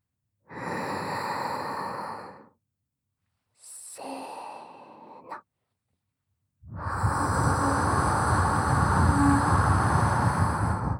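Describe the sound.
A person taking deep breaths, three long airy rushes of breath separated by silences, the last one sustained for several seconds and louder than the first two, with no talk.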